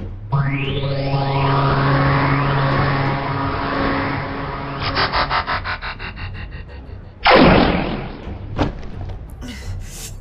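A gunshot bursts out loud and sudden late on, after a long whining tone with sliding harmonics and a rapid fluttering pulse, followed by a few lighter clicks.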